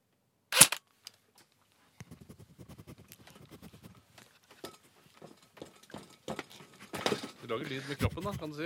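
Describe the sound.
A gunshot imitated with the mouth: one short, sharp, loud burst near the start, followed by quieter scattered clicks and mouth noises that grow busier toward the end.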